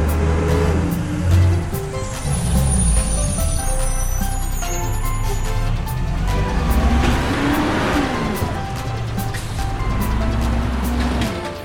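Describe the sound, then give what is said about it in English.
A garbage truck drives around city streets collecting rubbish, its engine giving a continuous, loud rumble that revs up and down throughout. “First, we drive around the city and collect garbage just like this.”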